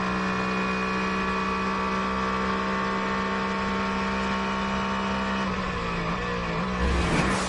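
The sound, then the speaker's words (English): Racing car engines as a Proton GT competition car passes a BMW in a race: a loud, sustained engine drone with steady tones that surges near the end. “The Proton competition for GT going past the BMW.”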